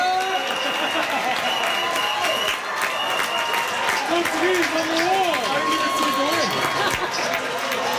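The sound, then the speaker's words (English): Portugal football fans celebrating a World Cup comeback, a loud, continuous crowd roar of clapping, cheering and shouting voices that stays dense throughout. “Portugal fans were celebrating a big comeback yesterday afternoon, comes after their team was under heavy criticism for their draw against the Democratic Republic of Congo last week.”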